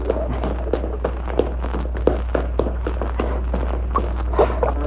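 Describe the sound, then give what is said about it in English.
Running footsteps across a ship's deck, a fast, steady patter of many hard steps over a constant low hum. “Let's make a quick run across the deck. Take my hand. Come on.”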